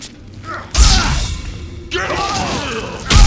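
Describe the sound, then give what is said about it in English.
Scorpion's spear attack in the Mortal Kombat fighting game, shot from his hand to grab the opponent: loud whooshing bursts, heavy thuds and a bellowing shout, in a few sharp onsets with speech mixed in. “Now, Scorpion's specialty, he has that spear that he shoots out of his hand and grabs the guy with.”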